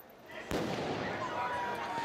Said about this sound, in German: Böller, Raketen und auch Molotow-Cocktails fliegen in die Menschenmenge und auf Polizisten.